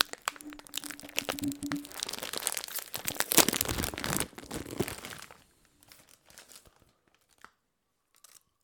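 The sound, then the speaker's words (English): A bag of Salt and Vinegar chips crinkles in a dense run of loud crackling rustles, then thins out into sparse, quieter crinkles toward the end. “Oh, bag of chips. Are those Salt and Vinny's?”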